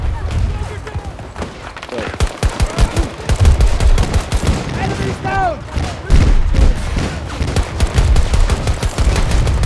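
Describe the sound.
Rapid video game gunfire crackles in dense bursts of many sharp shots with heavy booms underneath, while players talk over the action.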